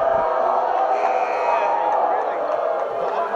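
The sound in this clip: A basketball crowd roars after a basket is scored. The cheering is a continuous, dense wall of noise, and a commentator's voice talks over it.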